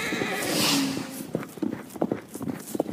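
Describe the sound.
A horse neighs, then its hooves clop in a quick, uneven run of many beats as it gallops off at speed. The hoofbeats are moderately loud and unaccompanied by voices.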